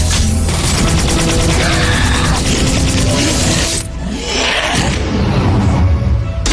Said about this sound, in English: Goddard, hit him with an ion blast.